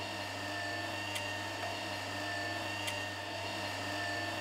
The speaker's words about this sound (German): Mover heißt das gute Stück. Eine Rangierhilfe.